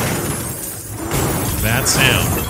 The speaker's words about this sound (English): have you guys heard the sounds of the golden stuff in that new, what's the Goblin Zone, the Goblin Realm or whatever that you can get into now?